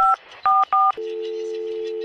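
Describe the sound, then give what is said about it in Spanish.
Telephone keypad tones sound as someone dials an ambulance for a young woman going into labor at a funeral home. Three short two-tone beeps are followed by one long, steady tone, loud and clean, with no talking. “¡Llamo a la clínica! ¡Llamo a una ambulancia!”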